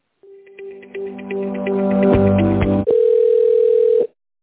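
Telephone line tones while a call is being transferred: a run of short, evenly spaced beeps that grow denser, then a loud steady held tone lasting about a second before cutting off.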